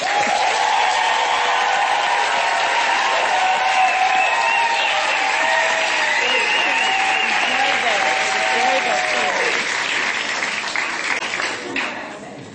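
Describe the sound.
Audience applause welcoming a performer to the stage in Johannesburg. Dense, sustained clapping with some cheering runs for about eleven seconds, then tapers off.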